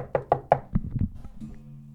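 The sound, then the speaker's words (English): Knocking on a house door: three sharp raps in quick succession, followed by a few duller, lower thumps, then quiet. “I bust by you. Knock on the door.”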